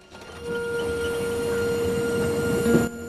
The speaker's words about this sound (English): A diesel train slowly pulls into a station.